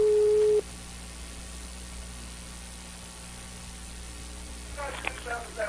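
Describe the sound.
A single steady telephone tone sounds briefly at the start of a prank phone call, followed by quiet line hiss and then a faint voice near the end.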